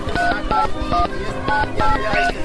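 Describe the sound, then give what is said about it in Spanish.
Touch-tone beeps from someone dialing a telephone: a quick series of short, steady two-note tones, several in a row, over a dense, continuous background sound. “Se asustó y llamó a sus amigas por teléfono.”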